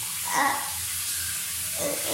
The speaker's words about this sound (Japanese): シャワーで汚いところを流してるんですけど